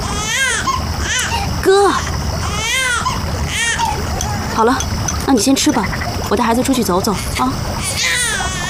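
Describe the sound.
A baby cries in repeated high, wailing bursts while an adult talks soothingly over the crying.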